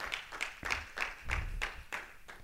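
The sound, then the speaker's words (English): A church audience claps together in praise, a faint, steady run of evenly spaced handclaps keeping a regular beat. “Somebody give God a hand clap of praise.”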